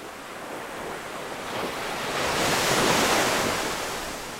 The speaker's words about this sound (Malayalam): മകരം തിരുനാളിനു മുന്നേ ഒരു കോരി കിട്ടുമെന്ന പ്രതീക്ഷ നൽകിയ കടൽ വീണ്ടും ഉറഞ്ഞു തുള്ളാൻ തുടങ്ങി.